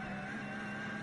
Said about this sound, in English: Porsche 911 GT3 Cup car is the noise you can hear